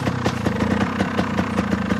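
A motorbike engine idles with a rapid, even pulsing thrum that stays loud and steady throughout. No voices are heard over the running engine.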